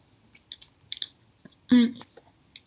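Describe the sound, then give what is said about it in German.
Biting into a soft chocolate-filled dough pastry: a few faint clicks, then one loud, crisp bite midway, followed by quiet, scattered chewing sounds. “Ich beiß mal rein.”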